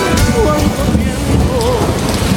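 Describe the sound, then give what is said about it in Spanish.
Steady rain falling over a city, a dense continuous hiss that runs without breaks at a fairly loud, even level throughout. “Sigue lloviendo la ciudad.”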